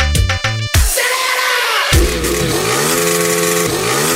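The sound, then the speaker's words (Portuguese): A motorcycle engine revs loudly at a live sound-truck DJ event. A short choppy burst comes first, then sustained roaring revs whose pitch wavers up and down. “Acelera esse motor aí, bora! Pega essa moto! Acelera!”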